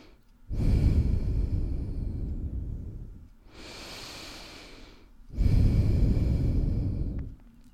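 Slow, deep human breathing during a guided breathing exercise: three long, airy breaths in a steady rhythm, the middle one softer and hissier, with no talk.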